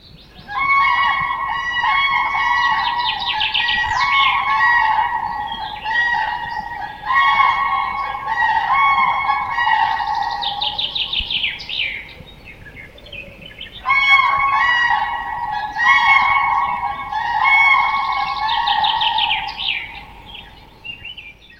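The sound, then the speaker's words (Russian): Cranes calling: loud, repeated trumpeting calls in three long bouts, with a short pause between each bout. “Журавли.”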